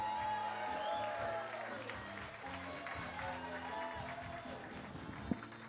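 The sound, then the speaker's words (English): An audience at a comedy show applauds and cheers as a comedian takes the stage, with steady, dense clapping and scattered whoops that continue throughout, and a single sharp thump near the end. “Give it up for Rivas Dunlap. Let him hear it.”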